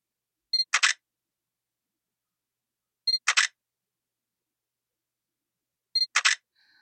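Three camera shutter releases, evenly spaced about two and a half seconds apart. Each is a crisp double click preceded by a short electronic tone, with silence in between.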